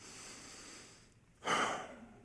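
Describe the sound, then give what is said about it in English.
A single deep breath, heard as a loud, airy rush that swells suddenly and tapers off, after a quieter stretch of soft breathy hiss. “Deep breath.”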